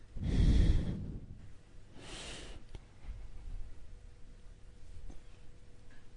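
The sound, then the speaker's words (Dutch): A deep breath drawn in through the nose and let out through the mouth during a guided breathing exercise. A fuller, soft inhale is followed by a shorter, fainter exhale, with quiet between them. “Adem eens heel diep in je neus. En uit door je mond.”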